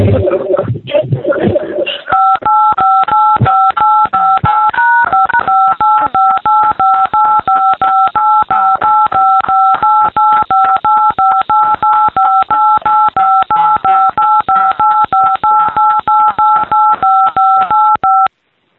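Telephone keypad dialing tones from a caller with an Alaska area code: after a brief rustle, a loud, rapid, unbroken string of dual-tone beeps runs for about sixteen seconds at a nearly steady pitch.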